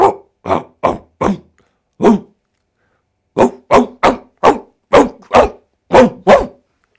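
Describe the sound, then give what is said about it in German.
Dog barking: thirteen sharp, loud barks with no other sound. Five come in quick succession, then a pause of about a second, then eight more in a steady, even rhythm. “Magst du dich vielleicht verabschieden, kurz in Hundesprache?”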